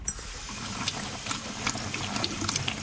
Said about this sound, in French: Alors on peut laver à l'eau tempérée, donc pas plus de 30 degrés, donc ça va être de l'eau tiède.